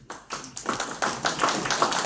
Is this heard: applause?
yes